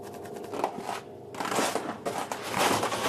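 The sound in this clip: Cutting through a one-metre ice core, a gritty rasping and scraping that runs steadily at moderate loudness, briefly thinning out near the middle before resuming.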